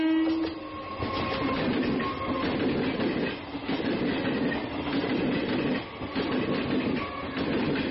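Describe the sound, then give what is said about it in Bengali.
An express passenger train running from Kolkata to Berhampore, heard as a steady, loud rumbling roar with a rhythmic clickety-clack of wheels on rails that continues without a break for the whole stretch. “Kolkata station থেকে Hazarduari express ধরে সকাল দশটা বারোয় বহরমপুরে ঢোকা যায়।”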